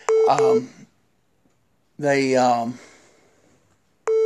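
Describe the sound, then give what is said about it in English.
Phone beeping as a call comes in: short electronic beeps, one at the start and another at the end, with a voice talking in between. “how's my phone beeping in?”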